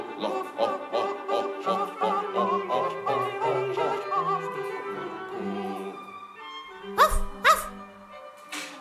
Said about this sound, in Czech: ty takhle štěkáš, tak to budeš moje hafo